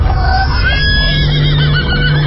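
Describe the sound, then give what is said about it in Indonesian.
A horse with bells: a steady, loud, dense rumble with thin ringing tones above it, continuous throughout. “aku melihat cahaya kuning datang mendekat, jalan dengan suara lonceng dan langkah kaki kuda yang semakin keras.”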